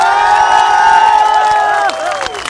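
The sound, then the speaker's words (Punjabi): Audience at a live Punjabi event cheering, whooping and applauding, with many overlapping high voices rising and falling throughout, then easing slightly near the end. “ਇੱਕ ਵਾਰੀ ਉਹਦੇ ਜਿਗਰੇ ਲਈ ਤਾੜੀਆਂ ਮਾਰ ਦਿਓ।”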